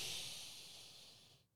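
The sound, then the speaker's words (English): Slow breathing through the nose, as done while walking between machines in a cardio gym session: a single steady, airy hiss that holds for over a second and then trails off. “it was all nasal breathing. And what I was doing in between, like, so when I'd walk between machines, I was just going,”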